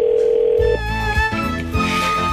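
Telephone dial tone heard while placing a call: a steady single-pitch tone lasting under a second, then cut off and followed by lower buzzing tones.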